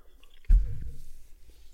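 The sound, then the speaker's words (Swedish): Someone bites into gruyère cheese with one soft, moist crunch, followed by faint, quiet chewing that trails off. “Men då vill jag prova osten. Får ja, jag hugga på?”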